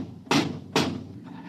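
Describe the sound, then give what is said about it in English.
Two heavy thuds as the lock on a door is worked open, each a sharp knock that quickly fades. “I think they're opening the lock.”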